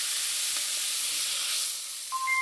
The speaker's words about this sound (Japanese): 同じフライパンにバターを入れて溶かしたら、牡蠣を入れて炒めてください。